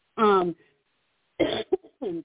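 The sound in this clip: Coughing interrupts a conversation about public webinars: a harsh burst, a pause, then a few more throaty coughs and throat clearing.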